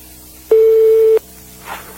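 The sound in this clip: Telephone ringback tone on an outgoing call: a single steady, mid-pitched beep lasting under a second, loud above a low hiss on the line.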